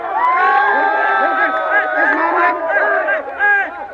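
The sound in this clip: A Bishnoi community crowd cheers and shouts in celebration of a court verdict in Salman Khan's case. Many voices overlap in loud, steady shouting and chanting throughout, with no pause.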